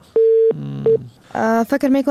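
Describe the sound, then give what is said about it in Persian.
Telephone line tone after a radio call-in caller's call dropped when his credit ran out: a steady tone, a short pause, a brief second beep, then someone begins speaking. “فکر میکنم کردیتشان تمام شد و تماس سبقت الله قادری قطع شد.”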